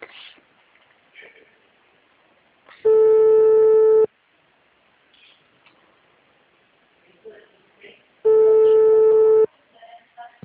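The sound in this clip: A telephone ringing tone on an outgoing call, with two loud, steady, buzzing tones, each about a second long, separated by a gap of roughly four seconds with only faint background noise.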